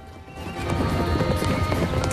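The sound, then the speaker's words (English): Hooves of wild horses running across dusty ground on a sunny ridge: a steady, rhythmic clip-clop of many hoofbeats, fairly loud and continuous over a low rumbling background. “Tyler and Jordan stop on a sunny ridge to watch the horses, whose hooves kick up clouds of dust.”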